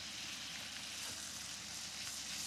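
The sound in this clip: Butter sizzling in a pan with thyme and garlic, a dense, steady hiss that holds at an even loudness throughout with no talk over it.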